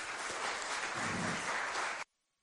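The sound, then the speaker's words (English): Audience applause greeting a guest speaker at a faith gathering, a dense, even wash of clapping that holds steady for about two seconds, then stops abruptly into near silence. “Why don't we give her a round of applause?”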